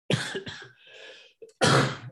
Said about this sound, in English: I got a dry cough here.